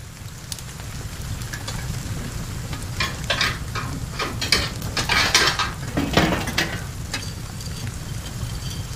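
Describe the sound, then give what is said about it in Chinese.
A stove in a cold room is poked to stoke the fire, with many irregular metallic scrapes, clinks and knocks over a constant rough, crackling hiss that carries through the whole stretch. “屋里是挺冷的，我把炉子再通暖和一点。”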